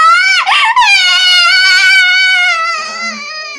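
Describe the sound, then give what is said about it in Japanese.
A person crying in a loud, high, sustained wail with a brief catch early on, holding steady before tapering off toward the end. “泣かないで。”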